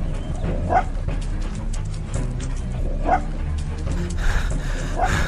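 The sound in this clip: A dog tracking a scent along a road gives a few short barks and yips, fairly faint against steady rushing background noise throughout.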